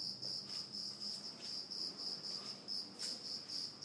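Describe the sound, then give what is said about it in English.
A cicada chirps somewhere inside a flat, a loud, high-pitched buzz that pulses in a steady, regular rhythm throughout. “So this audio mo is called "There's a cicada in the flat”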